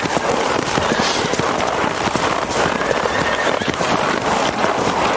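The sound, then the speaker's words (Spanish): Hooves of officers' horses walking through a snowy forest at night, heard as many quick clip-clops and thuds over a dense, steady rustling hiss that stays loud throughout. “Los oficiales que montan a caballo se separan del grupo.”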